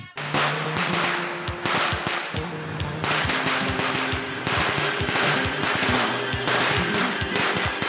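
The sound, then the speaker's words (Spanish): Firecrackers burst during mid-June festivities in a dense, relentless barrage of sharp, loud pops and cracks, many bangs overlapping with hardly a pause from start to finish. “Petardos al azar presenta secciones al azar. ¿Te gusta el olor a pólvora a mediados de junio? ¿Eres de los que te deja media nómina en hacer ruido?”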